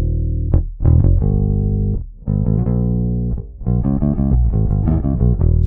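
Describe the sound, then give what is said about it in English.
A real bass guitar plays alone: deep plucked notes and sustained low tones in a few phrases, separated by brief gaps. “Going back to the bass guitar, using an actual bass, it would sound like this.”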